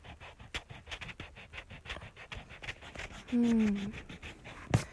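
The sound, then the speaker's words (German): Rubber eraser rubbing out a pencil drawing on paper, a run of quick, rhythmic scratchy strokes, faint and papery, with a brief tonal sound near the end. “Was mache ich dann? Ich habe jetzt gerade hier auch kein Radiergummi. Ach doch, habe ich.”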